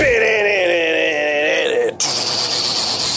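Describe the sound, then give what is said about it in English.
An electric guitar riff in a rock radio station jingle, with loud, sustained wailing notes that slide slightly, then abruptly give way to a brighter, higher sustained tone. “That's a guitar. KLT, the rock station.”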